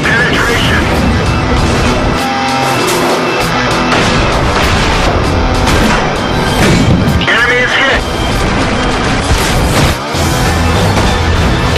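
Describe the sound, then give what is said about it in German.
Tank gunfire and explosions from the online tank game World of Tanks: dense, loud booming blasts and rumbling engine noise that run throughout, with voices talking over the action. “Ja, heute geht es um World of Tanks. Panzer, taktische Simulationsshooter, online geballere.”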